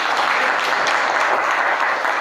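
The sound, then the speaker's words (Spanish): Audience applause at a Catholic religious talk on the Holy Rosary, a dense, steady wash of many hands clapping at even loudness throughout, with no voices standing out. “¿Por qué no le damos un aplauso a la Santísima Virgen María?”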